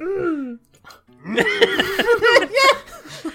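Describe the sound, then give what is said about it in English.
A voice imitates a lovestruck girl's little crush noises: a short, falling, cooing squeal, a brief pause, then a run of warbling, squeaky vocal sounds that bend up and down, with giggly laughter mixed in. “she makes these little crush noises that I forget how it goes, but she's just like,”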